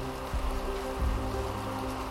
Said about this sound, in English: It is raining like crazy. It's not going to stop raining. This is no ordinary rain. This is a monsoon.